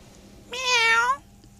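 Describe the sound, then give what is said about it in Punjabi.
A single drawn-out meow, loud and alone, with a clear tonal voice that holds a fairly steady pitch for well under a second before cutting off. “ਮਾਣੂ ਬਿੱਲੀ”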